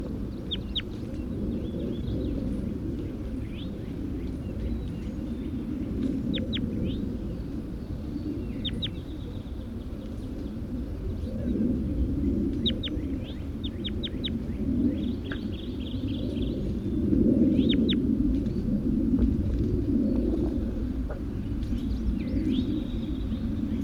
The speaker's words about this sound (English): I'm going to be releasing bird number 81 right now.